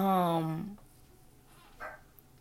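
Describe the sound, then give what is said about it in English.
A dog barks at home during a recording: one long, loud, tonal bark or whine at the start, then a shorter, fainter yelp later, with quiet in between. “oh my God, my dog is barking, and I'm trying to record”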